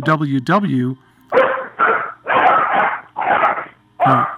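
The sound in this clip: A dog yelps twice in high, wavering cries, then barks several times in short, sharp, evenly spaced bursts, all loud and close together.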